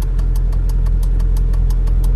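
A car engine runs with a loud, steady low drone, while a rapid, regular ticking repeats over it the whole time.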